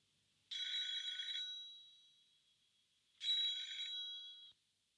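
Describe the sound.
A telephone rings twice, each a bright, buzzing bell burst of about a second with a long pause between. It is faint, with no voices.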